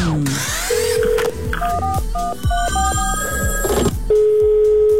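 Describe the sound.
Telephone tones for a radio call-in: a steady beep, then a quick run of stepped dialing tones, then another held ring tone, with a steady rhythmic beat pulsing underneath.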